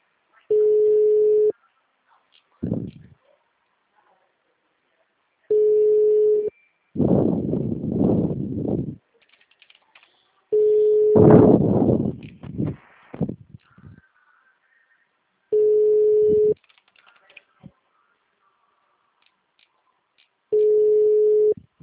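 An outgoing phone call rings back with five evenly spaced ringing tones, each about a second long and roughly five seconds apart, with bursts of rustling and handling noise in the gaps.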